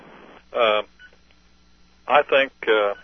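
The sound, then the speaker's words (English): Telephone keypad tones sound as a caller switches phones mid-call: four short bursts, one, a pause, then three in quick succession, over a faint, steady line hiss. “Well, we're getting a lot of static, Richard. Yes, we are. I don't know, that may be my phone. Let me switch phones here just a second, Richard.”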